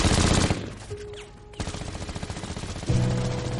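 Submachine gun fire in a shootout, the gunman spraying bullets toward a fruit stand: loud bursts of rapid automatic shots, with an opening burst, a short lull, then a sustained run of fast rattling reports.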